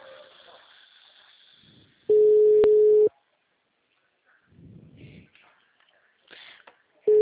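A telephone busy tone after the other person hung up: a loud, steady, mid-pitched beep lasting about a second, then near silence with faint breathy rustles, and a second beep starting just at the end.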